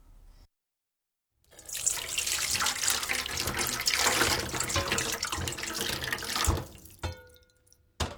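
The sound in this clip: Tap water gushing steadily as fried fish balls are rinsed in a strainer to wash starch off their surfaces: a loud, continuous hiss and splash for several seconds, then a few faint drips and clinks as the flow stops.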